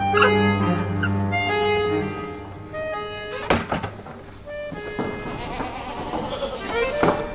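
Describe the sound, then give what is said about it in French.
Goats from a herd kept by a shepherdess bleat in several wavering, overlapping calls at moderate loudness, with a few dull knocks near the middle. “À côté, on entend les chèvres dont s'occupe Hélène”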